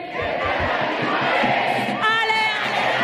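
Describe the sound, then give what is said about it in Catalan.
Barça fans singing with Alexia Putellas as she says farewell at the Johan Cruyff stadium: a loud, sustained crowd chant of many voices, with a clearer sung line rising out of the mass near the end. “Alexia Putellas cantant amb l'afició, acomiadant-se del públic del Johan Cruyff”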